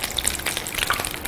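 Breaded croquettes fry in hot oil with a steady crackling sizzle. Many small pops and spits rise over a soft bubbling bed of sound, at a moderate level.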